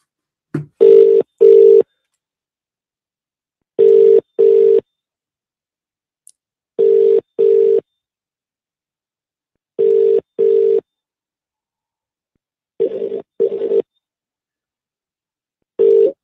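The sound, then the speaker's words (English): Ringback tone of an outgoing phone call that rings unanswered: paired steady mid-pitched bursts repeat about every three seconds, five full pairs and the start of a sixth, with silence between them and no voices. “Right, let's dial up our next caller.”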